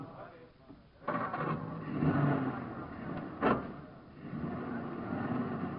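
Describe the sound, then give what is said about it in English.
A car engine revs and the car pulls away up a street, a moderate rising growl with a couple of sharper surges, heard under people talking. “Drive up the street there and stand by for your signal. Okay, here I go.”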